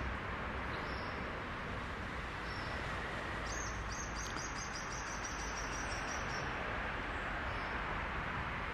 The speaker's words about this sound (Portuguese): A princípio eu não estava entendendo porque que tinha um sabiá barranco.